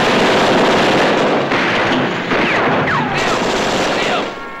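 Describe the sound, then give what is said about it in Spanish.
Gunfire aimed at an approaching police car during a shootout comes as rapid, overlapping shots that merge into a dense, loud, continuous crackle and roar, easing slightly toward the end. “dispara contra un coche de policía que se acerca a él y el vehículo vuelca.”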